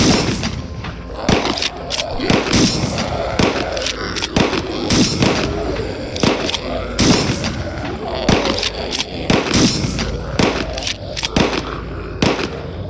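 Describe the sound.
Gunfire from weapons rattles in many rapid bursts of sharp shots mixed with heavy booms and thuds, loud and continuous throughout.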